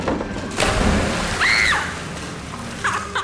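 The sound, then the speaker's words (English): A body smacks into water in a 360-spin belly flop: a broad watery rush swells just after the start and carries on, with a short whistling tone partway through. “Yo, what are the odds you do a 360 belly flop, eh? Oh, 1-1, bro. I'll do it right now.”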